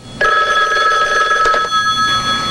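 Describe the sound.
A telephone rings in a basement with a bright, steady electronic tone. The ring sounds loud and sustained on its own, then continues more faintly toward the end.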